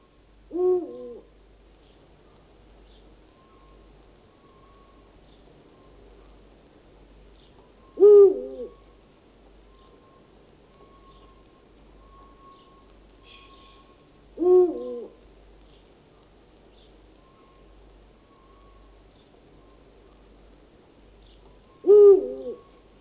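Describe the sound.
Four deep owl hoots, each a short low call spaced about seven seconds apart, standing alone over a faint, steady background.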